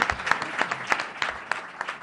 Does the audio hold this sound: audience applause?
yes

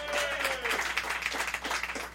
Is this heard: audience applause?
yes

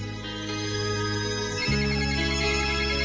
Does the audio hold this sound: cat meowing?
no

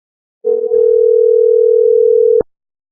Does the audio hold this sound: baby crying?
no

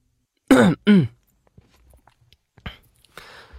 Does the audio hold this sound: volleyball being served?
no

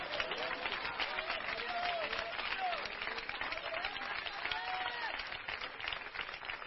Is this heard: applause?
yes

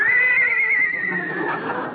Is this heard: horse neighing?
yes

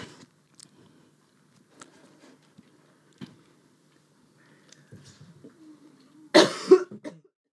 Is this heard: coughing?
yes

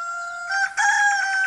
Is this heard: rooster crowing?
yes

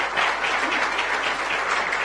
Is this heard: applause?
yes

